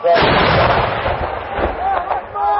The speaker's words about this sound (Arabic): دك معاقل النظام في ريف إدلب على كورنيش إدلب طريق عين شيب في مدفع جهنم